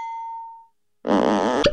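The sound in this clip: A short, clear ding tone rings and fades, followed by a moment of silence. Then a fart sound effect bursts in as a loud, buzzy, raspy blurt lasting under a second.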